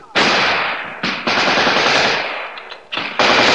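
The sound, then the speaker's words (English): A .50 caliber machine gun fires from atop an M-26 tank in a few long, dense, roaring bursts, each broken only briefly before the loud rattling fire resumes. “That's our 50 caliber atop the tank. Opening fire, the aggressive forces are dispersing.”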